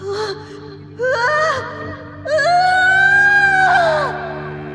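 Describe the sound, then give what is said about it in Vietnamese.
A ghost's agonized scream of pain, voiced as three drawn-out, wavering wails. Each cry is louder and longer than the one before, and the final sustained cry sags in pitch as it fades. “Một tiếng thét vang lên, nhưng không còn là tiếng gầm gừ oán hận nữa, mà là một tiếng thét đầy đau đớn, như thể đang phải chịu đựng một sự tra tấn khủng khiếp.”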